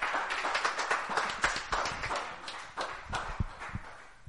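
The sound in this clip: A church audience claps in irregular, crisp bursts, fairly faint and without a steady beat.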